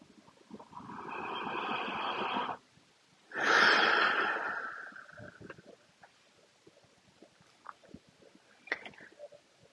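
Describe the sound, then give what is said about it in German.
Two long, deep breaths, a slow airy inhale followed by a louder, fuller exhale, then quiet with a few soft clicks and small mouth noises. “Noch ein tiefer Atemzug, weil es so schön ist.”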